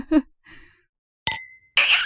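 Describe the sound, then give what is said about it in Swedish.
Teacups clink together once in a toast of tea, giving a sharp bright tap with a short high ring. A brief voice comes just before it, and a burst of breathy noise follows. “sitter vi här med våran tekopp. Skål på teet. Skål på teet.”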